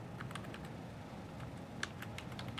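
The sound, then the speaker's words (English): Keystrokes on a computer keyboard as a password is typed: a quick, irregular run of many soft clicks, faint and with no talk. “All right, so I'm just going to log on. I've got a super secret password I didn't want to show.”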